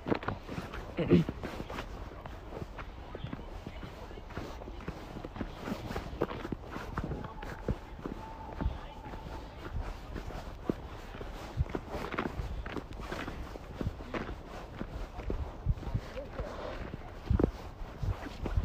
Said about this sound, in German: So, wir laufen hier ein bisschen im Wald.